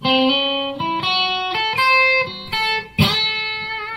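An electric guitar plays a slow lick ending in a minor bend at the 8th fret of the 2nd string, giving a raw minor sound. Several sustained, ringing notes follow one another, with a sharper, brighter attack near the end.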